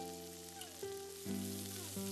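A hamburger patty sizzles in a pan as it is flipped, giving a faint, steady frying hiss over a soft background tone.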